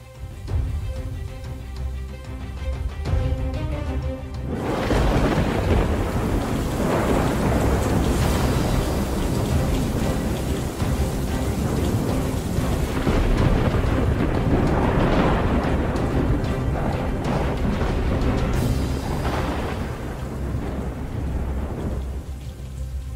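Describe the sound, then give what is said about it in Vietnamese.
A thunderstorm with heavy rain: steady loud rain hiss under deep rolling thunder, quieter at first, then surging into a dense, sustained roar with a few heavy rumbles. “Trên bầu trời, mưa gió sấm sét vẫn cứ đùng đoàng đáng sợ.”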